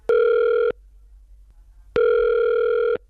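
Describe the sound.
Telephone ringback tone at the start of a call: two long, steady buzzing rings, loud and evenly pitched, separated by a quiet pause of over a second, with no talk.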